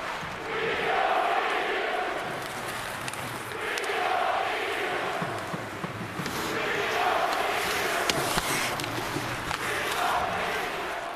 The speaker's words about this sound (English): That sound from Sportsnet's broadcast, that is New York Islanders fans who were fired up to welcome back former captain John Tavares to the building in Nassau Coliseum. It was the usual round of jeers